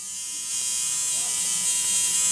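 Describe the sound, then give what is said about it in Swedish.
A tattoo machine buzzes at a tattoo convention in Östersund featuring women tattooists, a continuous high electric whine that starts slightly quieter and then holds steady and loud. “Det här ljudet kommer det bli mer av i Östersund, för idag startar en ny typ av tatueringsmässa med 20 kvinnliga tatuerare från Sverige och andra länder”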